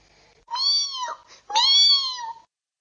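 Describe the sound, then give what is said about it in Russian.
A kitten meows twice, high-pitched and clear, each call lasting nearly a second with a short pause between, alone against silence. “Ой, совсем забыл. Котенок! Котенок! Надо же его покормить.”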